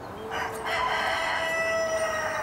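A rooster crows near young lion cubs, one long drawn-out call rising out of a steady, dense background hiss, with no voices.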